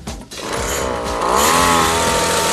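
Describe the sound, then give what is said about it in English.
A motor revs hard under throttle during a test run after its fuel pipe was replaced. It gives a loud, rough, continuous drone whose pitch climbs partway through. “The Greens have replaced their fuel pipe and are going to have another go. Give it some more throttle, it's cutting again.”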